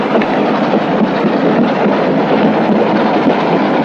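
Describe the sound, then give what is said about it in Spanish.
A train rumbles steadily as it travels through a snowy landscape, its roofs white with snow and its wagons flying red flags. The rolling noise and rattle stay loud and unbroken throughout, with no voices. “El tren avanza por el paisaje nevado. Sobre su techo, blanco por la nieve, los vagones llevan banderas rojas.”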